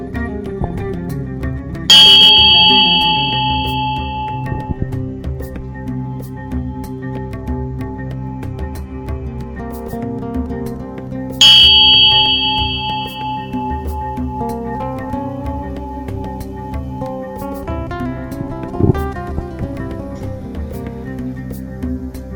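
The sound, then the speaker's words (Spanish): Two clear bell strikes in a guided meditation, each ringing out with a bright, sustained tone that slowly fades, spaced about nine seconds apart over a steady low background. “Al escuchar la campana, voy a pedirles que regresen.”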